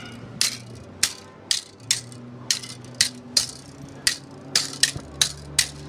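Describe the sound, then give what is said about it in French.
A kitchen whisk and a metal spatula clash together to imitate foil fencing at a stand: roughly a dozen sharp, bright metallic clinks in an uneven, rapid rhythm, each a crisp strike with a short ringing tail. “Et donc là, c'était un fouet de cuisine. Un fouet de cuisine et une palette en ferraille.”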